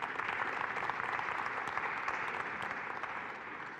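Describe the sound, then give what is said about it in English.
A church audience applauds the worship team with steady, dense clapping that holds throughout and eases off slightly at the end. “Would you give a thank you to the worship team this morning?”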